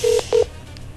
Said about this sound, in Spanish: Listo, ya le voy a marcar.